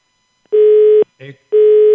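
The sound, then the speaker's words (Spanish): Busy tone on a telephone line after a dropped call: two long, steady mid-pitched beeps, each about half a second, separated by a short garbled burst, loud and alone. “se nos cayó la llamada con Katy”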